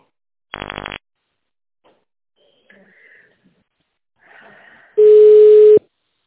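Telephone tones while dialling an office extension: a short burst of rapid pulsing beeps, faint low noises, then one loud, steady tone held for under a second.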